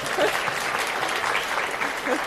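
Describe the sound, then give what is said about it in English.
Audience applause at a question-and-answer session, a steady wash of many hands clapping that runs throughout, with some voices mixed in beneath it. “Give a round of applause, everyone.”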